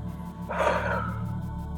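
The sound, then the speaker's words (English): A deep inhale and exhale during a guided breathing exercise: one soft, airy breath that swells and then trails off, heard over a quiet, steady low background tone with no talk. “let's just gently take one deep inhale. And exhale and release this thing.”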